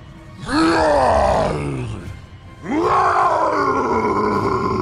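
Two long, guttural roars of an orc warrior raising a bloodied axe, voiced by a person imitating the creature. The first swells and fades; the second bursts in strongly and carries on to the end.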